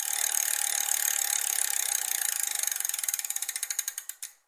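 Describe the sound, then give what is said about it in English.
A prize wheel spins with a rapid, steady run of ratcheting clicks that gradually slow and spread apart before stopping abruptly. “we have to spin the wheel for six items.”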